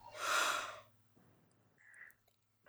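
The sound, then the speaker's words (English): A single big, loud breath taken during a guided tapping self-acceptance exercise. It rushes briefly and is followed by a few softer, quieter breathy noises. “Big breath.”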